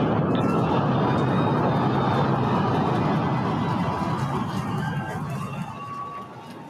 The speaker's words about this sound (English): So yeah, that was the sound of the SpaceX Starship launching.